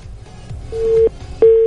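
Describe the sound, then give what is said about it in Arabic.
A phone busy tone plays after a dropped call: two steady mid-pitched tone pulses, the second running on to the end over faint background sound. “راح الاتصال, نرجع نتصل عليكم من جديد.”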